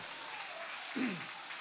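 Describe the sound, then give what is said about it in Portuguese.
Faint, dense applause from an audience clapping for Jesus during a church service, a steady hiss of many hands with a short vocal sound rising briefly near the middle. “Pode aplaudir, é para Jesus as suas palmas.”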